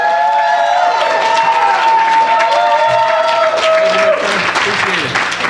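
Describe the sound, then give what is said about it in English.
Audience applause and cheering at a comedy night at Rossi's in Muskegon as a comedian comes on stage, dense steady clapping with a voice speaking over it. “Give him a big hand.”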